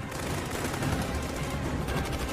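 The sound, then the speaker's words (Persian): Heavy gunfire during a combat firefight, a sustained, dense rattling barrage of overlapping shots that stays loud and continuous throughout, with no clear gaps between bursts. “شلیک خیلی زیاده.”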